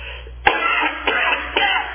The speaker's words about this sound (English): One more cough.